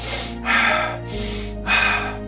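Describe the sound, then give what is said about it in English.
Rapid, deep breathing demonstrated by a person: a quick run of loud, airy breaths that alternate in and out with almost no gap, over a steady low hum. “The repetitive breathing more quickly and deeply, this kind of thing,”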